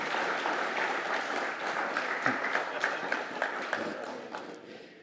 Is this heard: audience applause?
yes